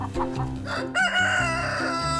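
Chickens clucking: a short run of low clucks, then a louder, drawn-out harmonic call that holds for about a second before further clucking.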